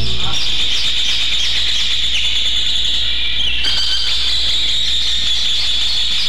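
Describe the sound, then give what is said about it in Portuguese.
A rufous hornero (João-de-barro) sings in the early morning, a shrill, high, continuous chattering trill that stays loud and steady over a low background hum. “Então tá certo, o João de Barro tá cantando também. João de Barro tá cantando também. Canta, João de Barro.”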